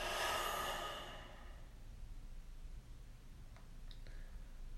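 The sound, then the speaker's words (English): A big, breathy exhale in a guided breathing exercise, loud and airy at first and then fading over about a second into a quiet hiss, with a few faint ticks afterward. “Last one like this, inhale. And big exhale.”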